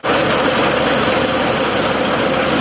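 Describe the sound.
Heavy farm machinery engine running during harvest, a loud, steady droning rumble with a gritty mechanical texture that stays constant throughout, with no talk.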